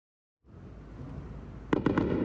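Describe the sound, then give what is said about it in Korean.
Iranian missiles roar overhead and air defence shoots them down above Jerusalem at night. A steady low rumble starts abruptly, and three sharp bangs follow in quick succession near the end. “굉음을 내며 날아가는 이란의 미사일. 이내 방공 시스템에 격추됩니다.”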